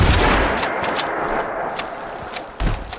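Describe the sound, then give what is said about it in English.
Shotgun shots in a video game: a few loud, sharp blasts with abrupt attacks and short decays, spaced irregularly over a steady background. “A few more shotgun shots to the face, and these guys should be done, hopefully.”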